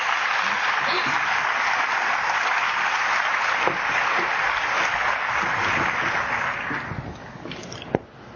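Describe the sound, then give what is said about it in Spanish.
Audience applause at a spiritism conference as a speaker is welcomed: loud, dense clapping holds steady for about seven seconds, then thins and fades, ending with one sharp isolated clap. “recibamos con un fuerte aplauso al doctor Fabio Villarraga Benavides.”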